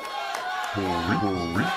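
A wrestling crowd cheering for a wrestler during a match: a background murmur swells partway through into loud, sustained chant-like shouting with a couple of rhythmic surges.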